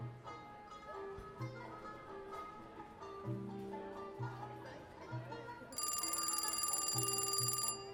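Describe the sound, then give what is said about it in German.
A telephone rings in an entrance hall: a loud, steady, bright electronic ring starts abruptly near the end and continues to the close, after a stretch of quieter tonal background sound. “Oha, hier klingelt es doch. Schau mal, da ist doch ein Telefon. Geh mal ran.”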